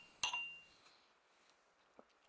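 Drinking glasses clink together once in a toast: a sharp, bright strike with a short ringing tone, followed by a couple of faint small clicks in near silence.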